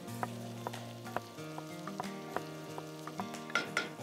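Onions frying in a pan make a faint, crackling sizzle with scattered small pops, heard under steady, sustained humming tones and growing a little busier toward the end.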